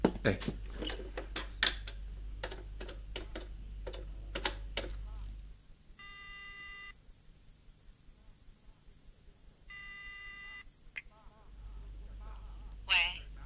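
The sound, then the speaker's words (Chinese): A telephone rings on a call home, heard as two buzzy ringing tones separated by a pause. Talk comes before them, and a faint hum sits underneath. “这样吧，我打个电话回去问问。”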